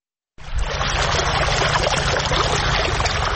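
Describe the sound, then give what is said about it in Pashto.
Well water in Sayed Abad district, Maidan Wardak, is lifted by solar-powered pumps and machines onto farmland. After a brief silence, a loud, steady gushing rush starts abruptly and pours on without a break. “دا د میدان وردګو ولایت په سید آباد ولسوالۍ کې د جوړو څاګانو اوبه دي چې بزګران یې د لمریزي هندارو او ماشینونو په مرسته راپورته کوي.”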